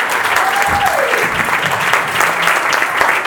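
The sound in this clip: Steady, loud applause from the audience at a plenary session of a people's health movement assembly, a dense, even patter of clapping throughout.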